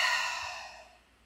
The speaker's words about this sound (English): taking another deep breath in through your nose and exhale.